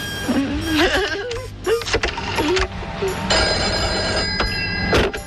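A telephone rings during a call, its steady tonal ringing sitting within a dense, noisy background that runs through the whole stretch.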